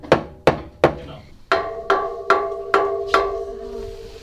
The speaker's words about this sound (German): Also wenn man so gegen die Kante von dem Tisch haut, hört es sich so an, als ob jemand dich so auf den Tisch schubst.